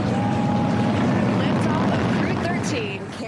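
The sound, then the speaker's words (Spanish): Continuous low roar of a SpaceX Falcon 9 rocket lifting off with a Crew Dragon capsule on the Crew 13 mission, a steady broad rumble throughout with faint tonal sounds over it. “3, 2, 1, ignition, and liftoff. Go Falcon, go Dragon, and go Crew 13.”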